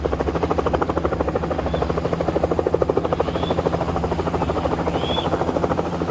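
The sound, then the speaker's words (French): Helicopter in flight, carrying two passengers toward Yambuku near the Central African border, a loud, steady rhythmic thudding of the rotor blades that holds an even level throughout. “Un hélicoptère les achemine tous les deux jusqu'à Yamboukou, près de la frontière centrafricaine.”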